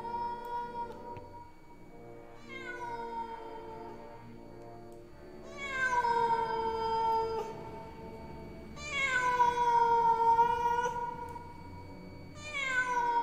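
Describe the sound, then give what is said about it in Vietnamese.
A stray cat yowls in the street, giving a series of about five long, wailing cries with rich harmonics. Each cry bends downward in pitch, and short quieter gaps fall between them. No voices are heard. “Ở đâu đó dưới phố, có tiếng một con mèo hoang nào đó kêu lên, đến não ruột.”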